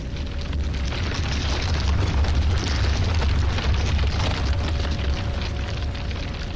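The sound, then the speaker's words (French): A roaring explosion sound effect depicting the birth of the universe: a dense, continuous blast of rumbling noise with a heavy low-end boom. It stays loud and steady throughout, with no separate individual bangs. “Sa chaleur et sa densité sont extrêmes, et elle explose.”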